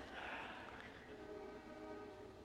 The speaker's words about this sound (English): It's been a long time since I've been interrupted by the train.